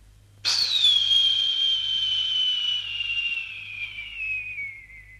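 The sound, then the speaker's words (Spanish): An arrow shot from a bow whizzes through the air with a long, high whistling tone that starts sharply and slides gradually lower over about five seconds, heard alone. “Y Ahmed tensa su arco hasta el máximo y tira.”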